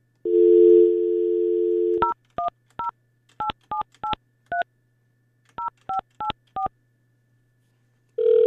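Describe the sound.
Telephone dialing: a steady dial tone, then eleven sharp two-pitch keypad tones in uneven groups, with a ringing tone starting at the very end.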